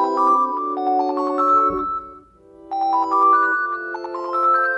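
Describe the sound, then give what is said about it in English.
Phone ringtone previewed as an alert sound on an Android phone: a bright electronic melody of sustained notes, played as two phrases with a short pause between them. “So now we have our ringtone set that we want to use for alerts.”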